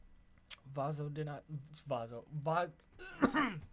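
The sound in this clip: Throat clearing from a dry, cottony throat: a few gruff, voiced rasps and hacks, fairly faint, mixed with bits of voice.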